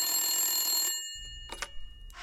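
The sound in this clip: A telephone rings with a bright, steady electronic bell tone for about a second and then cuts off, leaving a low background rumble and a few soft, brief knocks.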